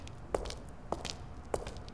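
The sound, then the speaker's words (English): Footsteps walking: three faint, evenly spaced steps about half a second apart, with no talk. “Okay, walk over there.”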